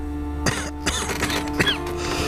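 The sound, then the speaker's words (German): A patient coughing on request during a doctor's examination: a few short, rough coughs and throat-clearing bursts spaced apart over a steady low hum, with no speech. “Geben Sie mir Ihre Hand. Husten Sie.”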